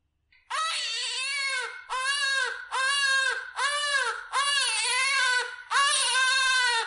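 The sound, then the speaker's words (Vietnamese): A newborn baby cries loudly in six long, wailing bursts separated by short gaps. Each cry has a slightly arching pitch, and no other voices are heard. “Tiếng khóc lại vang lên, so với lúc trước còn lớn hơn.”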